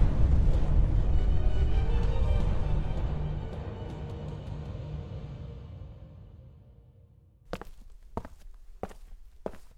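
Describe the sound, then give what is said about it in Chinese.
Deep rumbling roar of a magic tower shaking violently and exploding. It is loud at first and slowly fades over several seconds, followed by a few sharp thuds. “突然高塔剧烈的晃动，随后爆炸了。”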